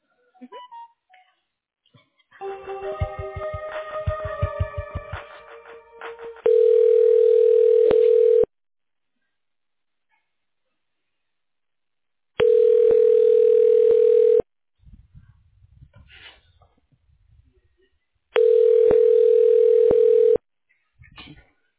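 Telephone line tones while a call is transferred: a short stretch of mixed beeping tones, then three long, steady, even tones of about two seconds each, separated by silent pauses.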